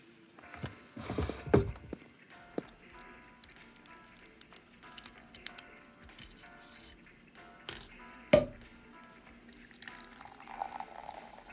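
Champagne being poured from a bottle, faint and uneven, with soft liquid splashing and a few short, sharp noises scattered through it.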